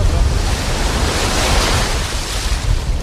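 Sea waves at a beach in moderate surf: a loud, unbroken roar of rushing and breaking water mixed with wind noise, steady throughout with small surges and no voices.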